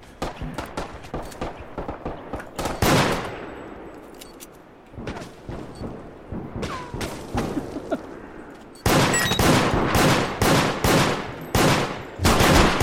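Gunfire in a video game rattles out as many sharp shots in rapid bursts and volleys, loud and dense, with heavier sustained fire toward the end.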